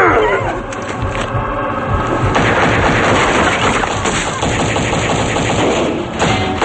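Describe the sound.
Gunfire in a shootout with police: a loud, dense barrage of rapid shots that continues through the whole stretch.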